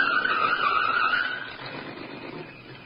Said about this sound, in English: The answer to that's in the car now approaching.